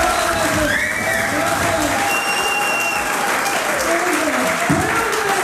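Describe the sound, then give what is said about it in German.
Prison inmates applaud a comedy show inside the prison in Hagen. Sustained clapping runs throughout, with cheers and voices mixed in. “So klang es am Abend in der Justizvollzugsanstalt in Hagen. Kein gewöhnlicher Gefängnisalltag, sondern eine Comedy-Show.”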